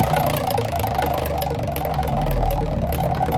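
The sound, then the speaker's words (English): A prize wheel spinning, giving a steady, rapid ticking over a continuous whirring hum that holds even and loud throughout. “We were going to spin the wheel. Here we go.”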